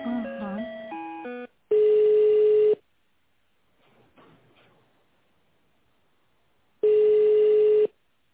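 A telephone call being connected: quick dialing tones at the start, then two long, steady ringback tones separated by a quiet gap, loud against near silence.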